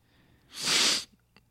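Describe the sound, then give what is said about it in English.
A person gives one sharp, forceful sniff, a loud breathy rush of air that lasts about half a second, followed by a faint brief click. “You're sniffing. You probably do have COVID.”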